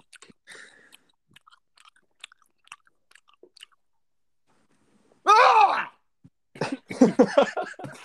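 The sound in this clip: Crunchy food being chewed, heard as many faint, irregular crunches and clicks over several seconds, followed by a loud drawn-out vocal groan and then a burst of talk.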